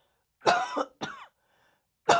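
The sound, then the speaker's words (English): A few short, rough coughs in quick succession, loud and alone, separated by brief pauses, with the last one cut off at the end. “I have a quick cough I need to do.”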